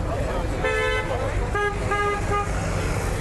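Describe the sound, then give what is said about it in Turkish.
Car horns honking repeatedly in heavy megacity traffic: several short, bright toots in quick succession, some overlapping, over a steady roar of road noise. “Mega kentin bitmeyen gürültüsüne uyarı için peş peşe çalınan korna sesleri de ekleniyor.”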